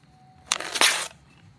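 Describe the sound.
Paper tearing as pages are ripped from an old digest-style magazine meant for burning. One brief, rough, crackling rip swells to a sharper surge midway and then stops, with no talking over it.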